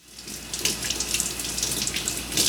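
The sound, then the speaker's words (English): Tap water runs steadily from a faucet into a sink while vegetables are washed for a home hot pot dinner. The splashing flow is continuous and even, with no voices. “We need to wash a lot of vegetables.”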